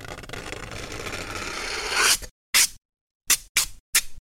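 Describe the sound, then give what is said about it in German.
The edge of torn aluminium foil drawn slowly across cardboard makes a long, harsh rasping scrape that grows louder over about two seconds, then stops. Four short, crisp scraping strokes follow, separated by silence. “Ihr reißt also ein Stück Alupapier ab und zieht die Kante langsam über die Pappe. Das hört sich dann so an.”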